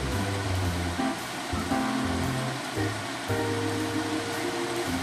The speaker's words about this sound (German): Da nähert sich auch schon von oben eine Trockenhaube.